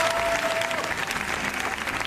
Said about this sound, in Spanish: Y en el cine, el largo aplauso.